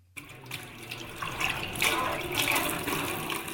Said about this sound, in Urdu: اپنے سسرال کے کچن میں برتن دھو رہی ہیں۔